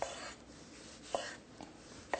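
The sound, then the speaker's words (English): A knife cuts vegetables into pieces, with a few sharp, faint knocks of the blade spaced irregularly over soft rubbing and scraping. No one talks. “And then cut each quarter into three pieces. Okay? And we'll just put them in the bowl. I'll do that again. We're going to cut these in quarters.”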